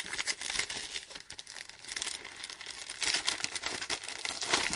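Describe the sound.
Paper crinkles and rustles as a letter from the post on a dining table is opened and unfolded, a continuous run of many irregular, fairly faint crackles with no talk.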